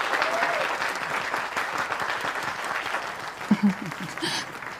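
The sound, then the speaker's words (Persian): Hands clapping angrily in a dramatized scene: a dense, steady patter of claps throughout, with a brief louder burst near the end. “کوچول خان با غیظ دست بزنه.”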